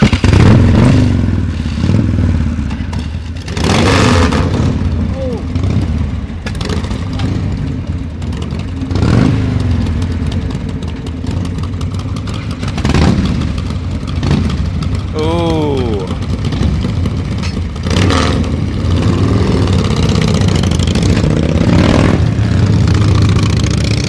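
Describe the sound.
A motorcycle engine revs loudly several times and then pulls away, its pitch rising as it accelerates, with people talking over the throughout.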